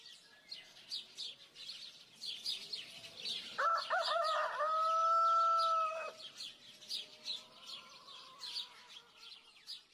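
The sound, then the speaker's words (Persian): A rooster crows once in a long call, with birds chirping and tweeting throughout before and after it. “صدای خروس بود. درست گفتی ها، اما فقط صدای خروس نبود.”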